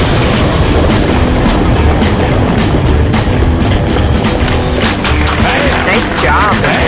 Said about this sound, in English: oh, that's rocket fire.